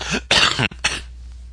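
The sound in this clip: A person coughs during a casual poker discussion: a few harsh, loud coughs in quick succession, with the middle burst the longest and no talk over them.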